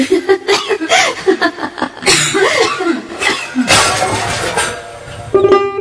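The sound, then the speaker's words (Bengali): A woman with a persistent cough that has lasted over a week coughs in a string of short, harsh bursts. Voiced, chuckle-like sounds come between the coughs. “এত কাশি কিসের?”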